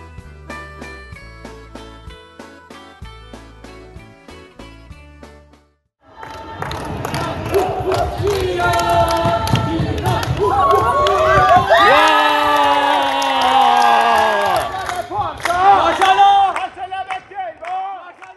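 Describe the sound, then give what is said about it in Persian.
A crowd cheering and shouting at a futsal tournament run by an Afghan Muslim association, a loud sustained roar full of high, excited voices. Several seconds of music come before it and cut off just as the cheering begins. “بله، از صدای پس زمینه مشخصه که چه خبره. ما 17 و 18 جولای رویداد داشتیم در کرایچ، مسابقات فوتسال بود که از طرف انجمن مسلمانان افغان برگزار شد.”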